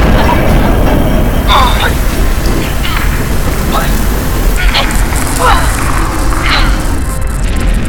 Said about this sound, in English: there's lava shooting into the CC.